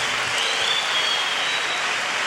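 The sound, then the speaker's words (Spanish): Congregational applause in a church during a worship night of songs: dense, even clapping that blends into a steady wash of sound and holds at an even level from start to finish, with no voices standing out. “Un aplauso a la presencia de Cristo en medio de nosotros.”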